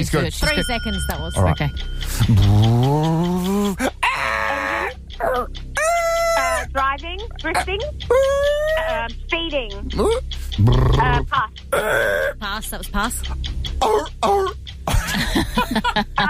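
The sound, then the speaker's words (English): Someone beatboxes during a guessing game, with a rapid stream of percussive mouth clicks, pops and breathy bursts mixed with sung tones, and people talking around it. “Here we go. Beatboxing.”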